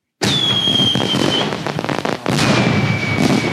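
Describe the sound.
Fourth of July fireworks: a sharp onset of dense crackling bursts under a high, sustained whistle. The crackle breaks off briefly, then a second whistle and more crackling follow, all loud.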